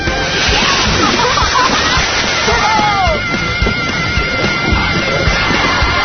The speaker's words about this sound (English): Time to wash up, you guys.